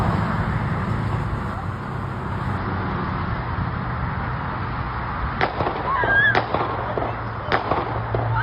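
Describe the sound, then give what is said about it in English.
A few sharp gunshot pops from video of a shooting by a student, spaced irregularly near the end over a constant noisy background hum. “We have some of the videos of the shooting here.”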